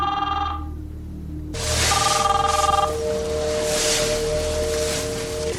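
A telephone rings in the middle of the night with short bursts of bright, bell-like tones, then a longer ringing stretch over a steady background hiss.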